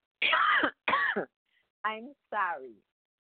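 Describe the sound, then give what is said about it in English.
Someone clears their throat four times: two rough, noisy bursts followed by two shorter, voiced grunts, loud and alone with silence between them. “I'm sorry. Just something's in my throat this morning.”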